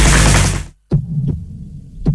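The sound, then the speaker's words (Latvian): A heartbeat sound effect in a pharmacy advert for heart-support products. A dense burst of noise cuts to brief silence, then three deep, muffled thumps follow, spaced unevenly over a low hum. “Dzirdi savu sirdi.”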